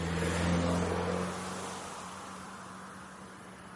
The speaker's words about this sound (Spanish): Por una pequeña y oscura carretera, un coche se aleja.